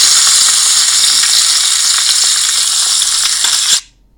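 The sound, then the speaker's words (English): Sausages and bacon sizzling in a steaming hot frying pan, a loud, steady hiss with small pops, cutting off abruptly just before the end. “and some sausages there into the steaming hot pan. Yep, let's just cook that a little bit.”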